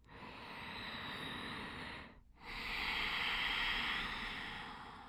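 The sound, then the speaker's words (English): Slow breathing through a slightly constricted throat, with the lips closed and air moving through the nose, makes a soft, hissing, ocean-like rush. Two long, quiet breaths are heard, separated by a short pause. “So when you breathe, the breath moving through this slightly constricted throat will sound like this.”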